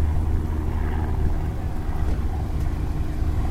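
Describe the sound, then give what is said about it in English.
Small single-engine plane flying overhead above a mall, a steady low droning hum with layered harmonics that holds at an even level throughout, with no voices. “A little single engine plane from the uh, Fairfield Airport and some sort of hawk in the air. Two flying things in the air together over the mall.”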